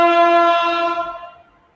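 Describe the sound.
A train horn sounds by the railway tracks near a home: one sustained, rich harmonic blast that holds steady and then fades away within about two seconds, heard alone.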